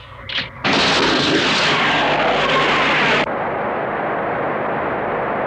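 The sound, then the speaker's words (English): A sci-fi laser torpedo firing effect: a short burst, then a loud, harsh roaring blast that holds for about three seconds before dropping to a steady, slightly quieter rushing noise to the end. “Laser torpedoes ready to fire! Fire now! Firing torpedoes!”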